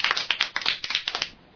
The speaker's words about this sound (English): So, ladies and gentlemen of the IF fraternity, please put your hands together in welcoming Manoj Bora.